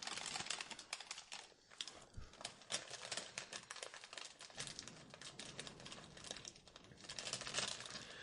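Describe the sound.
Keyboard typing: rapid, irregular clicks of keys struck in quick bursts, crisp and continuous throughout, with brief uneven pauses and no voices.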